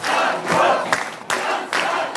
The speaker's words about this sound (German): Obwohl er gar nicht zur Wahl stand, galten ihm die Jubelrufe in der Parteizentrale.